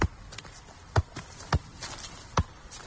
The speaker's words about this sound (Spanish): Hace toques de balón.